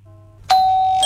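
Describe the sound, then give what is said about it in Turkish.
Doorbell ringing: a faint hum, then a loud bright chime strikes and rings on, with a second chime tone striking just before the end. “Vallahi kapı çalıyor.”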